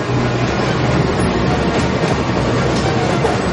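A subway train runs through a metro tunnel with a loud, dense, continuous rumbling roar that stays even from start to end, with no talk.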